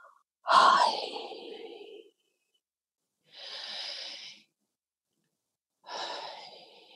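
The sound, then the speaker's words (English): Slow, deliberate breathing during a guided breathing exercise, three separate breaths with silent pauses between, the first louder and fuller, the next two softer and airier. “I want you to release the breath all the way back down on the journey that it came.”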